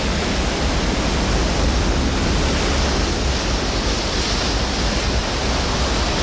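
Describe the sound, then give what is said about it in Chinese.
Rough sea waves crash onto a rocky shore, forming a dense, unbroken roar of churning surf. It stays loud and steady throughout, with no separate breaks between waves and no voices. “岸边礁石密布，海浪异常汹涌”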